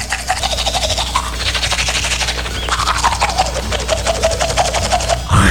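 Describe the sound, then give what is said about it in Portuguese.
A toothbrush scrubs teeth in fast, steady back-and-forth strokes, giving a dense, raspy brushing noise that stays loud and continuous throughout. “tá escovando os dentes hora dessa”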